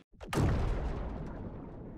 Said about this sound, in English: A blinding flash as waves of explosions blast Iran's capital overnight.